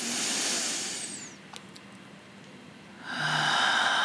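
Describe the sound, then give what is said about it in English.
A deep breath during guided relaxation, heard as two long, soft, airy breath sounds separated by a quiet pause. “Take another breath with me here.”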